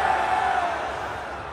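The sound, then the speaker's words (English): Crowd booing, a dense, sustained roar of many voices held loud and unbroken for under two seconds, easing slightly toward the end. “Is that why you were booing?”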